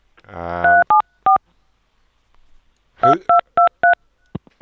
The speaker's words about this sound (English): Who's trying to dial? Oh, trying to dial what?